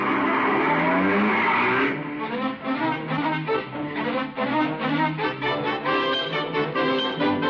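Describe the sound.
A car drives off with its tires skidding: a loud burst of squealing hiss for about two seconds, then a steady, rumbling engine drone with a pulsing texture.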